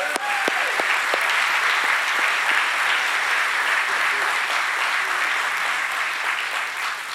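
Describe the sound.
Applause from a church audience welcoming a guest pastor from Calvary Chapel in Chattanooga at Calvary Knoxville, with steady, dense clapping that holds at full strength for the whole stretch.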